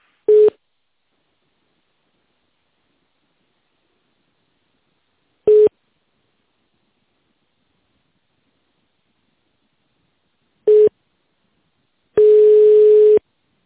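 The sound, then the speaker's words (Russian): Telephone tones while a call is being transferred: three short beeps at one mid pitch, spaced about five seconds apart, then a longer steady tone of the same pitch. No voices. “Секунду, я переведу ваш звоночек.”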